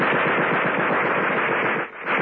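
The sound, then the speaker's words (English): A sudden burst of machine gun fire: a loud, rapid, continuous rattle of closely spaced shots that keeps up steadily for about two seconds, with a short dip near the end. “There was a sudden burst of machine gun fire.”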